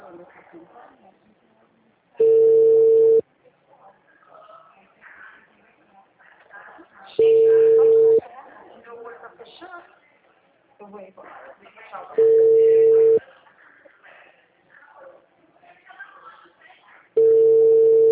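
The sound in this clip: A phone rings unanswered on a call to a mother who does not pick up. Four evenly spaced ringback tones, each about a second long, sound roughly five seconds apart, with a person talking in the gaps between them.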